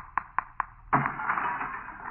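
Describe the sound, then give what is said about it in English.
A piggy bank being broken open: three sharp, evenly spaced taps, then a harder crack followed by a sustained scattering rush, with no voices. “Give me my little brother's piggy bank. I'll break it open.”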